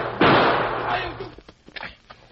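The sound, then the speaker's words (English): Gunfire echoing through a canyon: one loud blast with a long ringing decay that fades over about a second, followed by fainter scattered clattering. “The gunfire split the silent air and rang through the canyon.”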